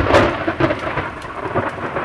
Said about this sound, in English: The National Weather Service's description, abundant moisture, slow-moving storms, is music to the ears of New Mexicans, as is the late afternoon thunder.